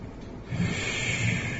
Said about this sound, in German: Wir werden das machen, indem wir ein paar Mal ganz tief ausatmen. Durch dieses tiefe Ausatmen werden wir automatisch dazu kommen, tief einzuatmen und so unseren Atem zu vertiefen.